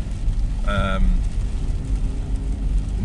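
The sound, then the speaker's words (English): Steady low engine rumble inside a car driving through rain, a continuous dense drone with no clear breaks, a brief tonal hum rising above it near the start. “Then you've got the sound of the car engine.”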